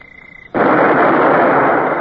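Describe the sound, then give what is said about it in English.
A ship's cannon opens fire with one sudden, loud blast that becomes a sustained, heavy roaring rumble. A thin, steady high tone sounds just before it. “Sir, if the first shot don't hit that vessel square, you can flog me a good dozen at the mainmast. Well, I believe we can open fire, Mr. Davy. Aye, sir. Open fire!”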